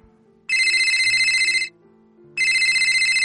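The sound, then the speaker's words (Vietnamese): A mobile phone ringtone plays in two bright, loud bursts of high electronic trilling, separated by a brief gap in which quieter melodic tones continue underneath. “Chuông điện thoại di động vang lên.”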